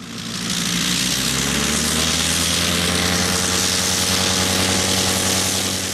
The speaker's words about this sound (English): That's the sound of a Sopwith Strutter, an iconic aircraft from the First World War.